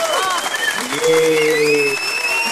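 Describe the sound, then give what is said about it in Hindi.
Applause sound effect played during a radio phone-in quiz: a continuous, fairly loud burst of clapping and crowd noise, with a voice sounding over it partway through. “आपके लिए तालियां. देखते मेरा तालियां बजता है कि”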